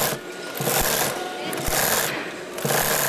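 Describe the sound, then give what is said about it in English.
Sewing machines whir in a garment factory where rows of workers stitch organic cotton pants. Loud, bursty mechanical runs start and stop every half second or so, with short pauses between them. “100 young Indian men and women sit behind sewing machines working on pants for the European market.”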